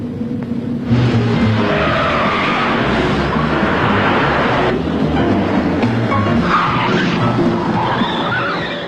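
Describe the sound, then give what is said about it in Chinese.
Car chase with skidding tyres: loud, continuous roaring engines and rushing noise, with higher squealing tones surfacing partway through before the din eases slightly at the end. “一场精彩的追车表演开始了”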